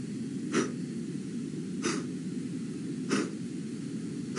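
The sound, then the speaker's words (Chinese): A singer blowing strong breaths onto a tissue to check breath control. Three short, forceful, breathy puffs come at an even pace over steady background noise. “我也是给大家做一下示例，怎么能检验自己到底呼吸呼的对不对？把这个纸巾放到离自己脸大概有一个头的距离，可能我放得更远一点，然后纸巾的下侧放到自己的嘴嘴边。”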